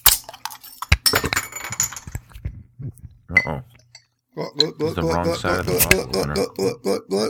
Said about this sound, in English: And it is dry hopped and unfiltered. Let's crack it.